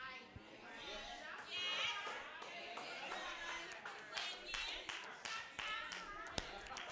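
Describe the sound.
A few audience members clap, the claps sparse and uneven against quiet voices.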